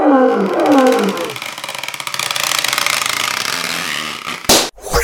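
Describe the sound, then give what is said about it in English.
A 500-pound lion roars during a circus act with a beach ball: a deep, loud growling roar at the start gives way to a long, rough, rumbling sustained sound, ending with a sharp thump. “Here's Leo and me telling Big Wanda, the 500-pound lion, to sit up and play with a beach ball.”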